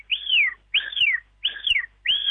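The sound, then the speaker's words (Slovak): A person whistling to imitate marmot calls: four sharp, high whistles, each sliding downward in pitch, evenly spaced with silence between them. “Snažil som sa to tak napodobniť ako svíšte, možno som až taký nebol”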